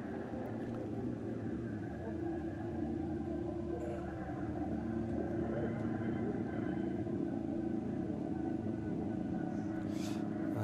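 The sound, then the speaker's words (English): Engine of a racing car picking up speed during the 2019 N24 qualifying race: a faint, steady low rumble and drone that continues without a break. “Through goes the leader, John Edwards. Car picks up speed”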